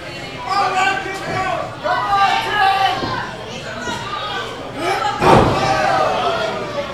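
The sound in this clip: A wrestler's head is slammed into a ring turnbuckle during a wrestling match: one heavy, sharp thud lands near the end. Commentary and crowd chatter run underneath throughout.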